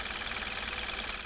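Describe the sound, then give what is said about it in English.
A Kia Optima car engine in normal condition runs with a steady, even mechanical hum and a rapid, regular pulsing rhythm, heard alone. “This is the sound of a normal Kia Optima.”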